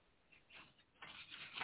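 Faint rustling and sliding of paper being moved around, a soft, papery shuffle that grows slightly busier toward the end.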